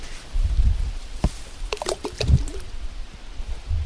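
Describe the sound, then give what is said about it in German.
Plum-like fruits drop from a tree growing on the bank into lake water below a boat, giving a few soft, separate watery plops and splashes over a quiet background. “Man fährt mit dem Boot jetzt unter diesen Baum, der direkt an der Böschung wächst, und kann ihn dann so reinplumpsen lassen. Das ist diese Plumpstechnik. Die hört sich so an.”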